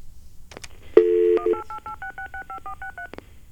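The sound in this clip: Touch-tone keypad beeps dial a toll-free number: a short low tone, then a rapid run of many crisp two-pitch beeps, each brief and evenly spaced, fairly quiet against faint background hum.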